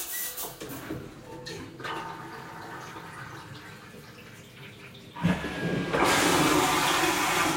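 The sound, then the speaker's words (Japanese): Toilet flushing, a broad hissing rush of water that surges suddenly louder partway through and stays loud and full until the end. “それでは流します。”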